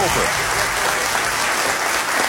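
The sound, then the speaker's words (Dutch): Applause from an audience for an author, a thick, continuous clapping that fills all two seconds at an even, loud level. “Mag een groot applaus voor Hugo Verkleij.”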